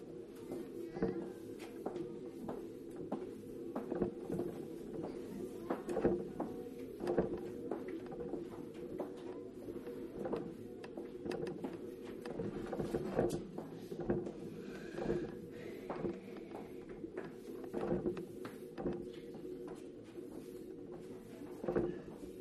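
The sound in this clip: An electric wheelchair moves along with a steady low motor hum, broken throughout by scattered light clicks and knocks.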